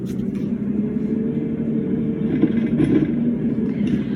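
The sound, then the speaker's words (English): A car driving home on a bumpy road gives a steady, low rumble of engine and road noise, moderately loud and even from start to finish. “So anyway, I'm just driving home, you guys. I'm driving home.”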